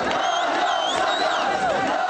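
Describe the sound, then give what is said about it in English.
A large crowd of Kurds cheers and chants in a square below Erbil's ancient citadel. Many raised voices blend into a dense, continuous roar, with shouted calls rising above it. “By late afternoon, more than 1,000 cheering Kurds had gathered in a square below Erbil's ancient citadel, all of them chanting, "No more Saddam."”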